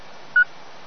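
A single short, steady electronic beep sounds as a button is pressed on an amateur radio set. It rises once, clear and mid-pitched, over a constant low hiss.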